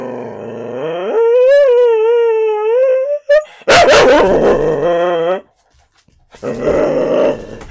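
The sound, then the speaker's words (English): A dog howls in one long, drawn-out, wavering tone, then breaks into rough, loud growling barks. After a short silence, more harsh barking follows. “I apologize for the dog... dog noises.”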